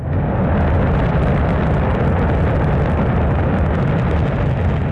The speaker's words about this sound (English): That is the Shenzhou 23 rocket blasting off on Sunday from Inner Mongolia.